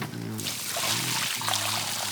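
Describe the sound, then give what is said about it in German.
Water pours from a watering can onto garden soil, a steady, continuous hissing trickle that runs for the whole clip without a break. “Und jetzt musst du die Erde wässern. Wie mache ich das denn? Nimm doch die Gießkanne da drüben. Die habe ich vorhin erst mit Wasser gefüllt.”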